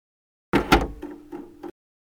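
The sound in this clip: A door closes with a solid thump and a second harder knock, then a softer latching clunk before silence.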